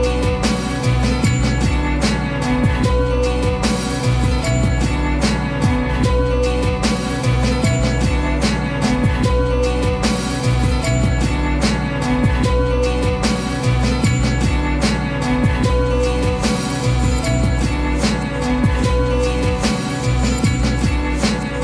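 A downtempo abstract hip hop track from 2005 plays with a steady, unhurried beat and deep bass under dense layers of instruments, looping evenly throughout.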